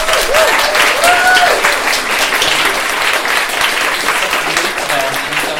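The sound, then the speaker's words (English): Loud audience applause at a live event, a thick, continuous wash of clapping held at a steady level throughout, with voices or whistles rising out of it near the start. “huge round of applause for Nikki and for Kida Consulting.”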